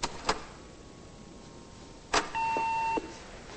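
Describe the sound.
A phone being dialed to check messages: a couple of sharp clicks, a pause, another click, then one steady, bright electronic beep held for about half a second.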